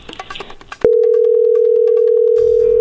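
A telephone call is placed to Villa Hidalgo, Jalisco: a few short keypad beeps, then a loud, steady, continuous electronic tone that runs almost to the end.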